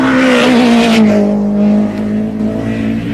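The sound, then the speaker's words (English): A BMW rally car's engine roars at full throttle on a rally stage. The loud, sustained drone drops gently in pitch over the first two seconds, then holds steady, with no voices. “Bertie Fisher in the Tough Mac BMW has nothing to lose, so it's maximum attack.”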